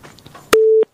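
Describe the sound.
A telephone busy tone sounds once when a phone-in call is cut off: a single short, steady mid-pitched beep, clear and loud after a moment of faint background noise.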